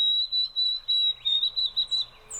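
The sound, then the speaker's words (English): White-throated sparrow song: a thin, high, pure whistled tone held steady throughout, pulsing in a series of several evenly spaced notes of similar pitch. “That was the white-throated sparrow.”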